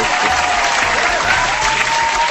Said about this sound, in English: He deserves the applause.